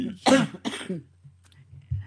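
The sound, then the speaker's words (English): Two harsh, throaty coughs in quick succession, the first stronger, followed by quieter low rumbles and faint throat sounds. “I'm sorry. Just cough.”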